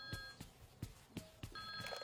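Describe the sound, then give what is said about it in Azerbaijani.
A telephone rings with a steady electronic ringing tone and several sharp, evenly spaced bell strikes, heard alone at moderate volume. “Ay dayan görüm, telefon səsi deyir.”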